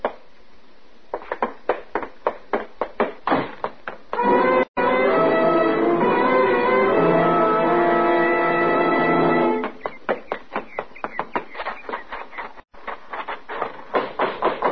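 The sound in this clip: Knocking on a door: a rapid series of sharp, hard knocks, then a sustained tonal swell, then another burst of insistent knocking.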